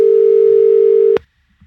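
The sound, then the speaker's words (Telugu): A telephone tone sounds after a phone-in call is cut off. The single steady, loud, mid-pitched beep holds for just over a second, then stops abruptly with a click, leaving near silence. “ఇప్పుడు cut అయింది పుజారి ధనంజయ గారి లైన్లో problem ఉంది”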